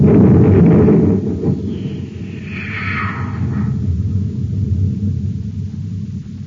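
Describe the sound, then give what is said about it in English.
A cosmic torpedo gun on a spaceship fires a torpedo, heard as a loud, steady low rumbling roar with a brief hissing sweep partway through, no voices. “Fire the torpedo.”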